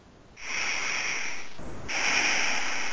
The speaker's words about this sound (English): Take a few more deep breaths. Just take a deep breath.